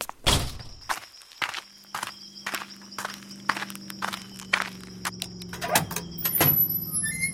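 Footsteps sneak out in a series of irregular soft steps and thumps, some louder than others, over a faint steady hum.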